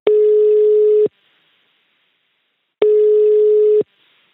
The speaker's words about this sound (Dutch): dus we gaan bellen